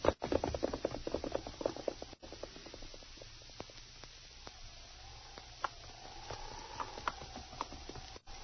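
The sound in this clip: Hooves of a ridden horse clip-clopping along a branch trail, many soft, evenly paced muffled beats over a low rumbling background.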